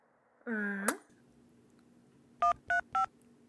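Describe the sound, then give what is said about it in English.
Three telephone keypad dialing tones sound in quick, even succession, clear and steady, used to dial a code for a phone hotline. A brief rising vocal sound comes before them, followed by a quiet pause. “Then dial the code.”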